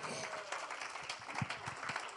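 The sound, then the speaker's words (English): An audience claps during a church sermon, with faint, scattered handclaps forming an irregular patter, with a few sharper claps standing out near the middle. “Clap for the Lord Jesus.”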